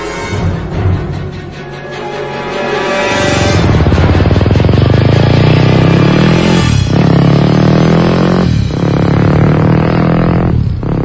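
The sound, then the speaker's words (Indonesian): A motorcycle approaches from a distance, its engine rumble swelling from quiet to loud and then holding a broad, steady roar broken by a few brief dips. “terdengar suara motor dari jauh. Aku pun melihat cahaya motor mendekati kami.”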